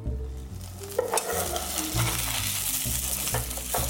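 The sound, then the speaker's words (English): A scallion pancake frying in a pan gives a steady, dense sizzle, with a few soft knocks and scrapes as a spatula slides underneath it. “Sliding my spatula underneath my pancake here.”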